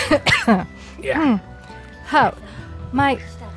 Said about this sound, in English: So, Naya, you start laughing and manage to giggle snort your way into a cough.